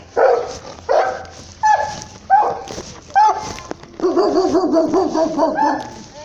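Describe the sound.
A dog barks in a few sharp, separate bursts, then breaks into a continuous run of high, wavering whimpers and yips. The sounds are fairly loud, with no talk over them.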